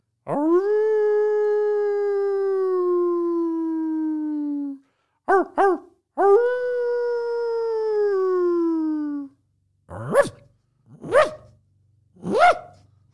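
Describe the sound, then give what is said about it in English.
Dog howling in two long, drawn-out wails whose pitch sags slowly, with a few short yips between them, then three sharp barks at the end, loud and alone. “That's a dog, bro.”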